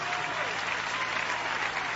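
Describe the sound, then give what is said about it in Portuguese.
A church audience claps in sustained applause, a dense, even patter of many hands that holds steady throughout, with a faint trace of voices beneath the clapping. “Palmas para Jesus, meus irmãos. Palmas para Jesus. Amém. Podem louvar a Deus com as palmas, meus irmãos. Louve a Deus com as palmas.”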